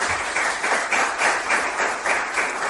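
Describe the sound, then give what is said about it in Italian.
Applause from an audience at a presentation event as a professor is introduced, a dense, steady wash of many hands clapping with a gently pulsing rhythm throughout. “non c'è bisogno che ve lo presento perché anche lui merita un applauso, diciamo, importante”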